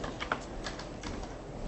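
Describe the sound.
A few faint keystrokes on a computer keyboard during a mortgage refinance calculation, with light, irregular clicks scattered over a quiet background.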